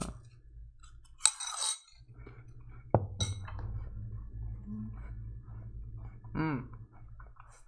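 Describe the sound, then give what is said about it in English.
A fork clinks against a bowl while apple pieces are eaten: a few sharp, bright clicks stand out above a steady low hum, with quieter scrapes between them. “You might be wondering, from the noise you hear, you're probably guessing I'm eating apples with a fork, which I am, like pieces.”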